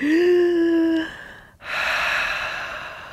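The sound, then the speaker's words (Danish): A deep breath in, taken while holding a yoga chair pose: a brief voiced tone gives way to a loud, sustained rush of breathy air lasting over a second. “lad os lige trække vejret lidt her i chair pose”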